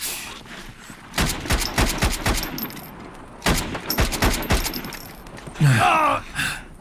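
Bursts of gunfire crackle in two clusters of rapid, sharp shots, loud and percussive, separated by a short lull, with a brief harsher burst near the end.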